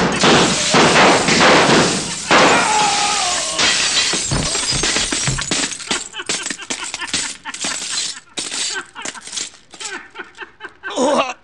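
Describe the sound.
Gunshots shattering mirrors: a loud run of sharp bangs and crashing, breaking glass, then many scattered clinks and tinkles of falling shards.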